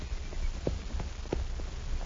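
Faint clip-clop of horse hooves in a Western posse scene: soft hoof strikes fall in a steady walking rhythm over low background noise.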